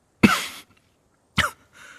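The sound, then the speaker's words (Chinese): Two sharp, loud coughs in a quiet courtyard in cold wind, each a short breathy burst separated by about a second of silence, followed by a faint trailing breath. “院子里一片静默，咳嗽声响起”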